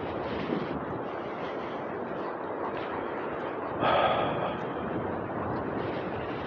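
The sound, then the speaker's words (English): Strong wind roars steadily across the microphone on a mountain, with one brief louder gust midway. “this is some crazy wind up here on this mountain”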